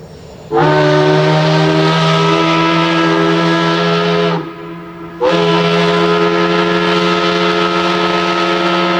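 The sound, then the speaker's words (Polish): A factory whistle sounding in the early morning in Łódź: two long, loud, steady hooting blasts with a rich harmonic tone, separated by a brief gap, with no voices. “Pierwszy wrzaskliwy świst fabryczny rozdarł ciszę wczesnego poranku, a za nim we wszystkich stronach miasta zaczęły się zrywać coraz zgiełkliwiej inne”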